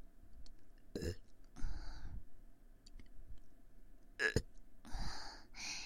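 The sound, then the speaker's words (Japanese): A few burps made close to the ear, some short and abrupt, others drawn out and rumbling, separated by quiet pauses. “耳元でゲップしちゃいますか？”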